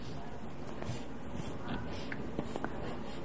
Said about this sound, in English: You want me to draw your mommy and daddy? Sure. Okay.